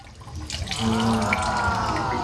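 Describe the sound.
Water poured into a coconut ferment mixture: a trickling stream swells into a steady, splashing pour partway through and keeps running to the end, fairly faint.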